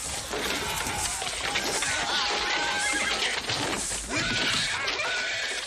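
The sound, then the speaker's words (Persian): Horses neighing as riderless horses bolt during a brawl, loud high whinnies rising and falling over a dense, noisy commotion throughout. “چند تا از اسبا که بی سوار شدند رم می کنند و به تاخت از آنجا دور می شوند.”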